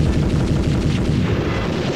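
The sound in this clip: Battle sound effect of machine gun and artillery fire: a loud, dense, continuous barrage of overlapping booms and rapid rattling shots with deep rumbling low end, with no talk over it.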